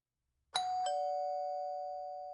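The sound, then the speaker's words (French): A doorbell chime gives two quick strikes, then one clear tone rings on and slowly fades. It sounds alone and fairly soft. “sorti de sa lecture par la sonnette”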